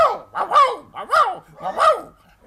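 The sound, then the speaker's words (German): A human voice imitates a dog barking in a series of strong, tonal 'wow' sounds. Short and long barks alternate in an even, metred rhythm over about two seconds. “Und jetzt bellt der Hund in Jamben.”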